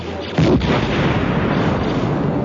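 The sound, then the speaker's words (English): Explosion sound effect from a night battle scene with towers crashing down: a sudden loud blast, then a dense, sustained rumble that continues to the end. “More explosions split the night, and a second tower crashed down with enough force to shake the whole building.”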